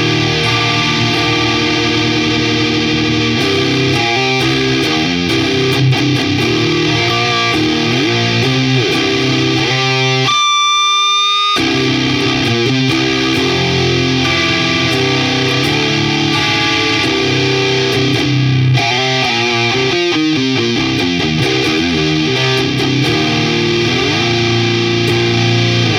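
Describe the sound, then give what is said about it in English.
A guitar runs through a germanium drive stacked with the Muffuletta's Civil War fuzz, producing a saturated, heavily distorted tone with an echoing tail. Sustained chords and riffs hold a loud, even level across the long passage. “When you just stack the in-your-face germanium with the Civil War, it sounds like this.”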